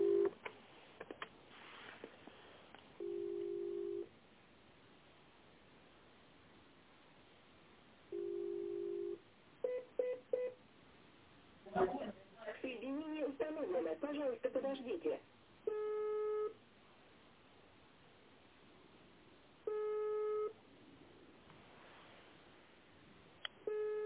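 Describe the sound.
Telephone line tones sound while a call is transferred: repeated steady beeps and short bursts of dialing tones, some in clusters, with voices speaking between them.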